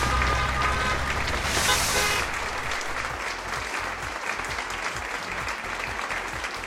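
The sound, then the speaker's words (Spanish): Audience applause at a comedic awards ceremony for free software games, a dense, steady wash of clapping that stays fairly even in loudness throughout. “Venga, un aplauso, por favor.”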